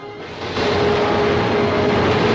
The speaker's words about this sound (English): Two Chinese women watch them taking off. Plane numbers 77 and 78 are next up in the sky.